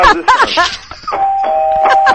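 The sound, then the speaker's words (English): A newly installed doorbell chimes, a few quick melodic ding notes followed by a sustained, steady ringing tone that carries through to the end. “I got a new doorbell. I want to make sure it works.”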